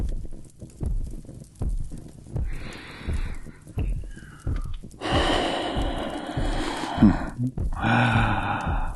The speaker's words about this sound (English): just relax and, breathe normally for me.